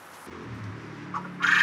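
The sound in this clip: Quail calling: soft, low chirring tones, then a brighter, louder call at the end.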